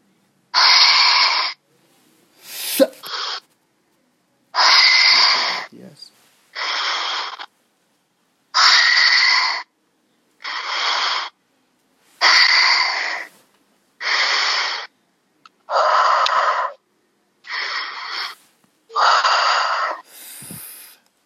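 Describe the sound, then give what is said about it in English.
Heavy breathing in and out during a prayer healing session: many strong, airy breaths alternate in an even rhythm, each separated by a short silence, with no talking. “Breathe in and out 5 times heavily.”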